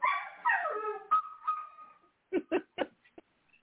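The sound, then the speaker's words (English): A dog whimpers in high, wavering whines, then gives three sharp, short barks followed by a faint yip. “Dogs want to be on the show.”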